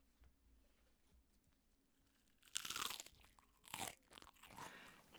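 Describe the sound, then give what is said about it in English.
Crisp crunching and chewing of lettuce being eaten, close and detailed. A quiet stretch gives way to several loud, wet crunchy bites with rustling in between. “ASMR is happening right now. Set returned according to his daily habit and ate the lettuce, which probably sounded like this.”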